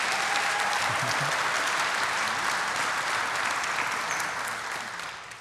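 Applause from a church audience thanking the musicians: dense, steady clapping that fills the whole stretch without voices and tapers off slightly at the very end.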